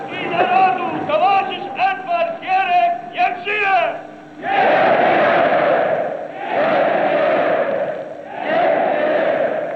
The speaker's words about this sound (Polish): organizuje klakę witającą pierwszego sekretarza Edwarda Gierka na wiecu w Katowicach, 2 lipca, rok 76.